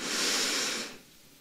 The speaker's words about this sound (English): we're just going to take a couple of masked deep breaths together. So, breath in and out.